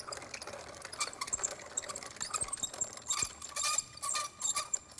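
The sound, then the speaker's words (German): Wheat is ground in a small mill for a moisture test, making a faint, busy mechanical rattling and whirring with irregular clicks and grainy patter. “Und der kommt jetzt da in die Mühle. Der wird ein bisschen gemahlen.”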